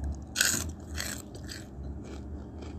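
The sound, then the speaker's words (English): Someone eats lunch: a crisp crunching bite, then a run of fainter crunchy chewing sounds, soft and alone without any speech. “this is going to be a mukbang ASMR type deal, because I'm recording this on my lunch break from work.”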